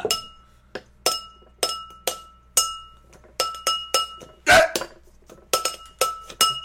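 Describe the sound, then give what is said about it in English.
Glasses clinking together in a toast: many sharp, bright chinks in an irregular run, one louder clash near the middle, with quieter taps in between and no voices. “let's cheers to everybody. Oh, God. Don't break my glasses, please.”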